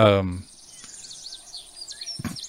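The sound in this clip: Outdoor ambience of chirping birds and buzzing insects from background music, faint and steady, with a voice talking briefly at the start and again near the end.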